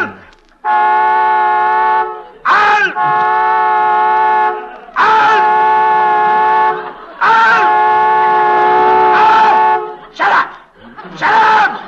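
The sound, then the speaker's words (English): A car horn sounds on its own, blaring because an electrical short was caused by a crash. It gives long, steady, loud blasts at a constant pitch, separated by brief breaks. “Honking that horn. I'm not honking, sir. There must be a short, sir.”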